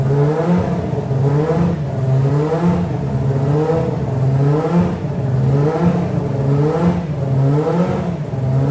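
A Formula 1 car engine holds high revs of roughly 7,800 to 8,000 rpm, a loud, continuous buzzing drone whose pitch swells and dips in a regular cycle about once a second.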